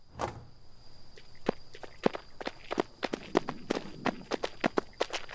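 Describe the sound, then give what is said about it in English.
Several people running on foot: many quick, sharp footfalls in an uneven, hurried rhythm, fairly loud and continuing throughout, with no talking. “We ran towards the faint blue lights.”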